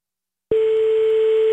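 A telephone line tone as a call is placed: after a short silence it starts abruptly and holds as one loud, steady, continuous pitched tone with no break.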